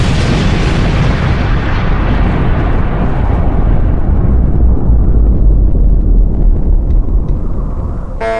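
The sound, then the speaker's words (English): A loud atom bomb explosion sound effect: one sustained, deep rumbling roar that holds for several seconds while its hiss slowly darkens, then cuts off abruptly. “You choose the sound effect. You want me to? Yeah, yeah. An atom bomb going on.”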